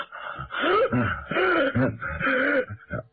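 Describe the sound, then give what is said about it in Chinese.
A voice imitates gasping for breath with the mouth wide open, giving several strained, moaning breaths with wheezy, uneven bursts that are loud and closely spaced. “雷春这脸色也变了，张着大嘴直喘气，”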